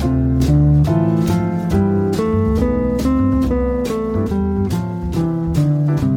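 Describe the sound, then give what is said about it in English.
A C major scale played over a D minor 7, G7 and C major 7 chord progression, with many evenly spaced single notes running in a steady rhythm above sustained chords that shift a few times. “that means we can play the C major scale over top of the 2-5-1 chord progression. So it would sound like this.”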